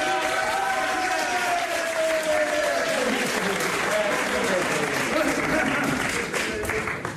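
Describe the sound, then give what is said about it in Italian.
Audience applause greeting a young man called up from the crowd: dense, steady clapping that holds at an even level throughout, with a voice faintly audible over it in the first half. “Un bel applauso, grazie, abbiamo un giovane!”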